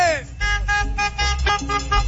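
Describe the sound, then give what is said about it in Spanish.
Car horns honk for a radio call-in show urging listeners to beep while tuned in, sounding as a few sustained, bright blasts mixed with an excited man's voice talking and shouting. “A toda la gente que va escuchando a la banda Acción y su Claxon. Repítale, pítale.”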